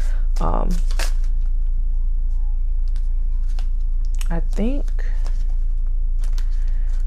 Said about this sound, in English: I think I got the cards I wanted. Okay, so the cards that I pulled were, I pulled the Fool,